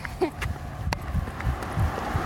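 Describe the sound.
Footsteps of people on a slow long-distance run: soft, low thuds fall in a loose, steady rhythm, with a few heavier strikes throughout.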